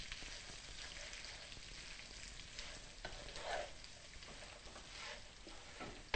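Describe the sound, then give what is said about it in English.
Vegan butter melting and sizzling in a still-hot pan, becoming the sauce base for vegan hot wings: a steady, faint frying hiss with light crackles throughout and no talk. “We want to melt the butter down because it's going to become part of the sauce.”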